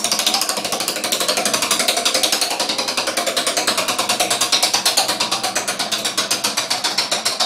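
Prize wheel spinning, its pointer clattering against the pegs in fast, loud, even clicks that gradually space out as the wheel slows.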